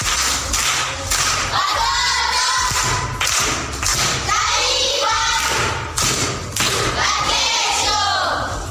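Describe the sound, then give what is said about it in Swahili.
A class of primary school children claps in applause during a riddle game, a dense, loud run of hand claps with heavier thumping beats recurring throughout. “Amepata, amekosa? Amepata. Makofi kwangu.”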